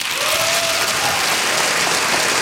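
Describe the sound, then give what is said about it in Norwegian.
Audience applause after a speech about independent journalism at a human rights forum in Oslo. Dense, steady clapping holds the same loudness throughout, with no voices over it. “applaus for Tin Lai Win under Oslo Freedom Forum”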